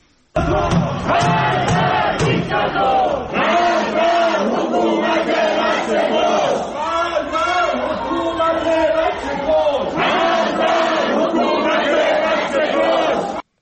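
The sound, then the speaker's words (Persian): Protesters in Ekbatan, Tehran chant and shout as a crowd, many voices rising together in loud repeated phrases. The chanting carries on almost without pause, swelling and easing in rhythmic waves. “این صدای معترضان در شهرک اکباتان تهران است.”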